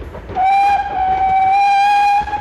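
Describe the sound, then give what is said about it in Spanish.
A train crosses wide plains, its whistle held as one steady, bright tone for about two seconds over the continuous rumble and clatter of the rail cars. “El tren continúa su camino abriéndose paso entre anchas llanuras.”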